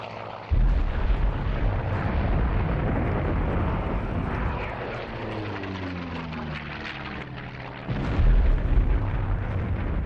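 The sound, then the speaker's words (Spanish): Fighter jets drop napalm in a Korean War bombing raid of 1950–1952, producing a sustained, loud rumbling roar of explosions. A jet engine's whining pass sweeps through the middle before the heavy booming swells again. “Los cazas estadounidenses, australianos y británicos sueltan toneladas de napalm o gasolina gelificada sobre los chinos.”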